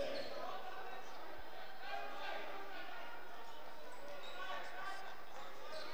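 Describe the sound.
A basketball is dribbled during a game, its faint bounces nearly lost under steady crowd murmur and talk.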